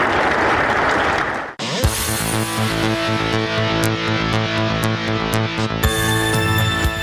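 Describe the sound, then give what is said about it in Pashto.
Applause from an audience at a sports display by youths and young children. Dense clapping lasts about a second and a half, then cuts off abruptly into loud music with a steady beat. “په اخیر کې ځوانانو او تنکیو ماشومانو د ورزش په برخه کې خپل نمایشات هم وړاندې کړل چې په چکچکو بدرګه کېدل.”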